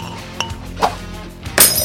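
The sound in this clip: A glass bottle is thrown and smashes. A few light clinks lead up to a sharper, bright crash of breaking glass near the end.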